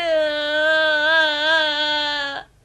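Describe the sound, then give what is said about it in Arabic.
A woman's drawn-out weeping wail, a shepherd's wife crying: one sustained, slightly wavering high tone held for over two seconds before it cuts off abruptly. “بكت الزوجة فقد كان لديها سبب كاف للبكاء”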